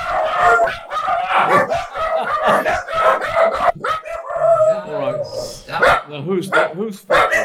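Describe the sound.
Dogs bark repeatedly in loud, overlapping bursts, mixed with people talking throughout.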